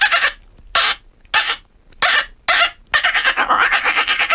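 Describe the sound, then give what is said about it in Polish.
A woman, a bird-imitation contest champion, imitates a reed warbler's song: five separate harsh, scratchy chirps spaced by short pauses, then a rapid, continuous chattering run. “I co to za stworzenie? Trzciniak.”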